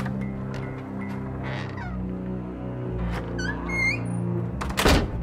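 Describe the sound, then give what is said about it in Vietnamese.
Heavy thud of automatic double room doors slamming shut near the end, over a steady low hum, preceded by a few high, squeaky honking calls. “Hai cánh cửa phòng tự động đóng sầm lại, phát ra một âm thanh vang dội kinh tâm.”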